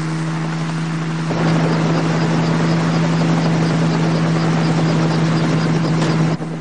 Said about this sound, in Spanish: El helicóptero empieza a funcionar y Philip y su madre se suben.